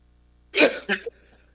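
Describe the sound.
A short cough bursts out alone in two quick, harsh pushes of breath, the second weaker than the first, then silence.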